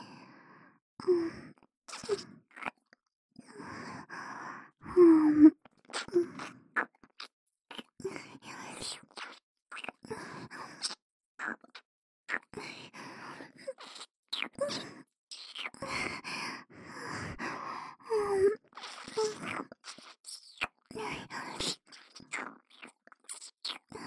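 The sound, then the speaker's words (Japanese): ASMR ear-eating mouth sounds, wet clicks, smacks and chewing-like noises in many irregular bursts, mixed with soft whispering and sighs, mostly faint with a few louder peaks. “お客様のお耳、いただきます”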